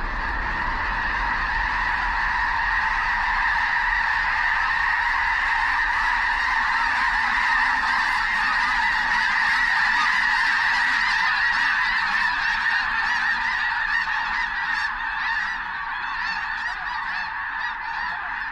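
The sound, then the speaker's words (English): Honking of a flock of migrating blue geese on a flooded field near Brampton, South Dakota, a loud, continuous chorus of overlapping nasal calls that stays dense and steady throughout, easing slightly near the end. “Ted Mack caught up with a flock of migrating blue geese resting on a flooded field near Brampton, South Dakota. But the flock soon gets wind of the intruders and takes wing north to new waters.”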